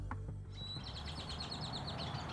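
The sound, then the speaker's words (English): Birds chirp in the trees of a city park in Phoenix. A quick, repeating series of thin, high chirps runs faintly over a low, steady background rumble. “Birds chirp in the trees and kids ride by on skateboards.”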